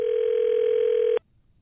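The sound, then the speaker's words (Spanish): Telephone dial tone heard while placing a call: a single steady, loud, unbroken tone that holds for just over a second and then cuts off abruptly, leaving near silence. “Estamos llamando a la Casa Blanca.”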